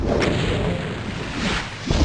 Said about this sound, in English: I think we'll start shooting them with our rocket launcher